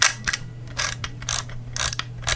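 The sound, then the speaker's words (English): Ratcheting clicks of a manual-advance film camera being wound, several quick bursts of crisp mechanical clicking over a faint low hum. “A manual advanced camera.”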